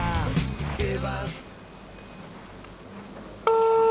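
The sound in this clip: A telephone ringback tone on an outgoing call starts near the end, steady and fairly loud. Before it comes brief talk and then a stretch of near silence.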